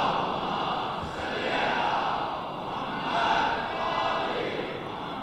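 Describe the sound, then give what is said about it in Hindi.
An audience chants a salawat slogan in unison, a loud mass of voices swelling and easing in a few broad waves without a break. “मिलकर तमाम मोमिन की सेहत और सलाम के लिए बाबा से बुलंद एक नारे सलवात भेजिए मोहम्मद आले मोहम्मद पर।”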